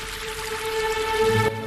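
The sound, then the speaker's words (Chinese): Water rushing from a fountain forms a continuous splashing hiss, with faint steady musical tones underneath, before the sound changes and drops away near the end. “大家快看喷水池！ 水全变成墨汁色了。”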